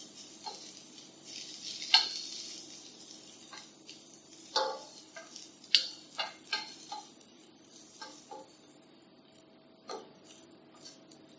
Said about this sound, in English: You don't want to cover the base of the pan with too much vegetables because they start sweating and then they stew as opposed to fry. So just using a wooden spoon to move them around.